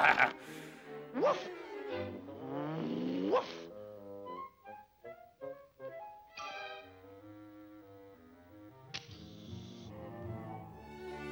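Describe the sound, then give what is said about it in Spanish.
A cartoon dog barks and whimpers in many short yips and choppy bursts, mixed with longer whining, tonal cries that rise and fall, loud at first and then softer. “¡Qué tonto perro! Es imperativo que me libere de esta precaria posición.”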